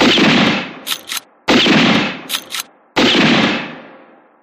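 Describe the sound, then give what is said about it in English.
Three loud, sharp rifle gunshots fired in rapid succession as a lever-action rifle is emptied into a tent. Each blast decays briefly, and short, sharp bursts fall between the shots. “As fast as he could work trigger and lever, he emptied the weapon into the tent, into that horror inside it.”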